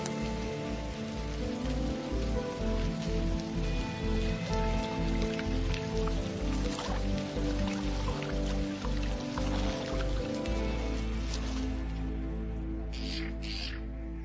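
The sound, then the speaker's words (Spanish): Steady monsoon rain falls in a dry prickly-pear cactus landscape, a dense continuous hiss of drops over a low, regularly pulsing tonal backdrop. “Con suerte, esto significa que la estación del monzón ha llegado finalmente. Todo aquí depende del diluvio de verano.”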